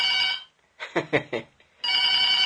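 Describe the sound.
Electronic telephone ringing: a steady, bright multi-tone ring sounds, breaks off, then returns, with a brief voice between the two rings.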